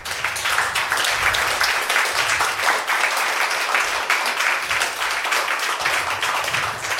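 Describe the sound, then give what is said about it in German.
Audience applause after a conference talk, a dense, even clatter of many hands clapping that holds at a steady level for several seconds without a break. “Dann, Simon, vielen herzlichen Dank. Nochmal einen fetten Applaus.”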